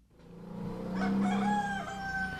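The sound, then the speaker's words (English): An Ayam Cemani rooster crows in a village on Java, Indonesia: one long, faint crow swells in, holds a strained nasal tone and trails off, with no talking over it. “I'm about to see the most magnificent breed of chicken on earth. It's known as the Ayam Chamani,”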